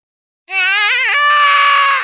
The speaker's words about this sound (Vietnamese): Kiến nhỏ màu vàng gào thét, nó không cam lòng khi bị kẻ thù áp chế, không ngừng liều mạng.